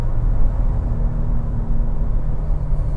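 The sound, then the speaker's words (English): A sports car engine held at 5,000 RPM in Sport Plus mode through a big corner at about 80 km/h gives a loud, steady low drone at an unchanging pitch, with no gear change heard. “this is the Sport Plus working, and it's just keeping the gears in place. 5,000 RPM. I'm not shifting. Come on, car, give me a gear.”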